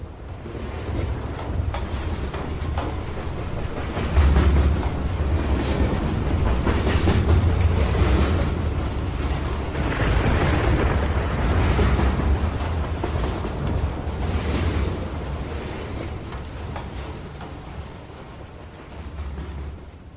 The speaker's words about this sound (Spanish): Ellos ni siquiera son conscientes de que están en un tren.